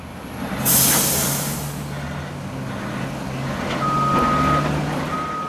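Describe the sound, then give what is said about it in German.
Garbage trucks work at a waste transfer station in Porto Alegre, Brazil, with a sharp air-brake hiss early on over a steady low engine rumble, followed later by high, evenly pulsed reversing beeps. “Wir befinden uns auf einer Umladestation in der Stadt Porto Alegre, im Süden Brasiliens. Permanent fahren LKWs durch das Eingangstor, um den Müll von mehr als 1,3 Millionen Menschen abzuladen.”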